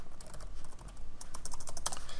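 Typing on a computer keyboard: a rapid, continuous stream of many light, clicking keystrokes at an uneven rhythm, with no talk over it.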